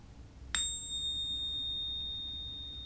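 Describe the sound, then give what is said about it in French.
A small bell gives a single bright ding to open a guided relaxation exercise done lying down. The clear, high tone rings out alone and fades very slowly over a couple of seconds. “Et quand tu entendras la clochette, nous commencerons l'exercice.”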